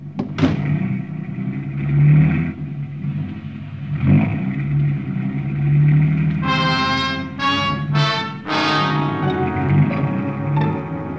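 A car engine driving through downtown city streets in Bangkok: a low, steady rumble that swells at times, then several loud revving surges in quick succession toward the end.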